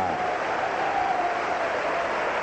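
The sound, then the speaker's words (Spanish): Congregation applause during a church service, with many hands clapping together in a steady, even, dense patter that holds at one level throughout. “Un aplauso al Señor, gloria al Señor, aleluya,”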